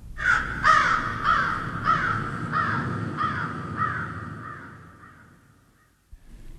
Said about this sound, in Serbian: Gavran. Gavran. Da. Gavran.